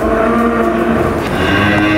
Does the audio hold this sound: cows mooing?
yes